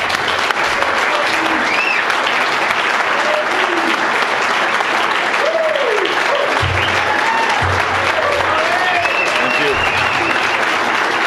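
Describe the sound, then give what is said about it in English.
Audience applause welcoming Tony La Russa to the stage: dense, sustained clapping fills the whole stretch at a steady, loud level, with no pause. “Ladies and gentlemen, would you please join me now in giving Tony La Russa a warm welcome.”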